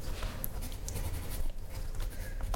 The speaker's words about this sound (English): Have you signed it? Ooh, I'll sign it here.